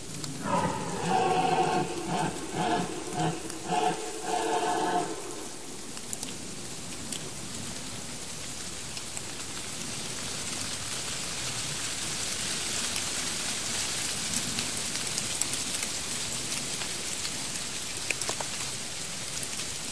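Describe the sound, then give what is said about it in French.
Rain falls heavily in a continuous, dense hiss of drops on surfaces, holding steady after a few seconds of brief tonal sound at the start. “La pluie s'aggrave.”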